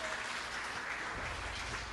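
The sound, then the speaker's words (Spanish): Church audience applauding as an offering of praise during a Spanish-language service: steady, dense clapping from many hands that holds at an even, fairly soft level for the whole stretch. “Dale una ofrenda de palmas al Espíritu Santo.”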